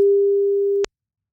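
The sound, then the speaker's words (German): A single ringback tone sounds on a telephone line as a call goes through: one steady, mid-low electronic tone lasting almost a second, loud and alone, then cut off abruptly with a short click and silence. “Und jetzt hat Melanie nur noch eine Aufgabe, ans Telefon gehen.”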